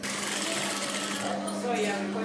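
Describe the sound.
Industrial sewing machines whir steadily while skirts are sewn, a continuous, even mechanical hum with a fast stitching buzz.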